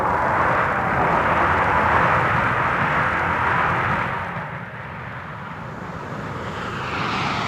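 Military bomber aircraft roar at a military airfield during frequent takeoffs and landings, a loud, broad engine rumble that holds steady, eases off midway, then swells again toward the end, with no voices.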